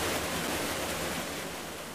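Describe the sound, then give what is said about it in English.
Cool, flowing stream water rushing with a broad, steady hiss that fades slightly toward the end, with no voices. “Or perhaps they imagined in their minds a beautiful, cool, flowing stream like this one.”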